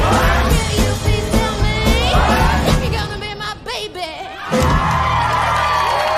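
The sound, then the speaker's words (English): An audience cheers and whoops loudly after a live music performance featuring a double bass player; the shouting briefly thins midway, then surges again. “Peter applauds. Thank you, everybody. Thank you. She bows and directs the audience applause toward the double bass player, then gets down off the stage.”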